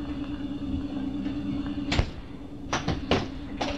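A door shuts and locks in a Doctor Who audio drama, sealing the control room. Over a low steady hum, a few sharp clunks and clicks land in close succession in the second half.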